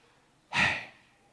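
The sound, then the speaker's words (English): A single audible out-breath from a person doing a breathing exercise, a breathy, hissing exhale that rises quickly and trails off slowly, heard alone in quiet. “just breathe out loud to hear your breath.”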